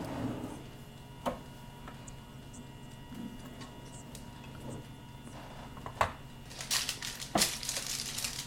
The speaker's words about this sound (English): because your bacon came out and I'm preheating. So why don't you do your bacon and then I can talk about it. Well, I have not much to say other than you heard the bacon